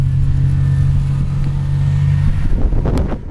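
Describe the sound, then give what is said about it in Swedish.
A motorboat engine drones loudly and steadily as the boat heads out toward an island in the Sipoo archipelago. The low, even hum turns rougher with bursts of splashing or flapping near the end. “Vi hoppar i båten här och ber oss ut mot Kamsholmen här i Sibbo skärgård.”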